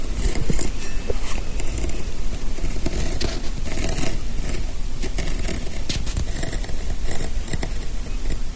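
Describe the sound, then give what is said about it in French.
A hand tool cuts through leather with a dense, continuous scratchy crackle and rasp that stays loud and steady throughout. “Le client ne va pas le voir et autant que le cuir soit utilisé. Donc là, je vais prendre mon outil et je vais pouvoir découper.”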